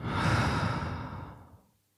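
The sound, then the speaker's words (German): One long, deep breath during a guided meditation, heard as a single breathy exhale that swells briefly and then fades to silence in under two seconds. “Und dann atme tief ein und tief aus.”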